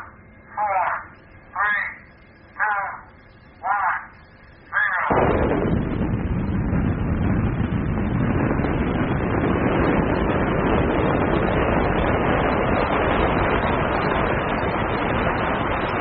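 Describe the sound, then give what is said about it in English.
Ground-launched missile recorded outdoors: four short, evenly spaced beeping tones, then a sudden, loud, rushing roar that holds steady to the end. “It is of a missile being launched from the ground. We did it outside.”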